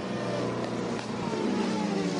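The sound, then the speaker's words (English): Engine drone of a race car pulling away from the pit lane after a pit stop with driver change and fresh tyres, a steady, fairly faint hum. “one of the smoothest pit stops, John, I can recall seeing in 2026. Driver change in tyres done about the same time, and then pack the energy in and send Jack Aitken away, taking over from Fred Vesti.”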